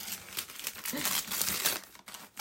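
Crinkling and tearing of newspaper as a wrapped gift is opened at a book gift exchange: a dense, continuous run of paper rustling with a short dip near the end.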